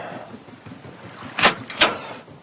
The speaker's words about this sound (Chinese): 然后关上门离开